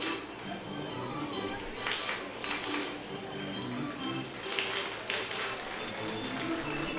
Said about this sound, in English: Crowd gives him a round of applause.